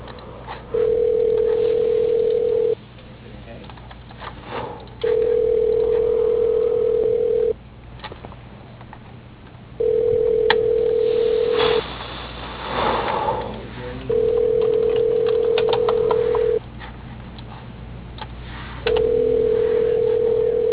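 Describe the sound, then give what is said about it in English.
A telephone call being transferred to voicemail plays a ringback tone: five long, steady buzzes at one pitch, each about two seconds, separated by pauses of similar length over faint line hiss. “Does he have a voicemail too, or no? Yeah, so I can transfer you.”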